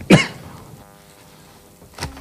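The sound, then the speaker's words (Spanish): A man coughs after swallowing an almond: one sharp, loud cough at the start, a long quiet stretch, then a second, weaker cough near the end. “Fernando Simón, que tuvo otro momento en este caso de tos, la culpa la tuvo una almendra.”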